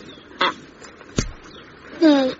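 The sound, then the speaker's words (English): A Canada goose gives two harsh, nasal honks, a short one first and then a longer, louder call, with a brief sharp thud between them. “Meanwhile, Boogie met his first Canada goose.”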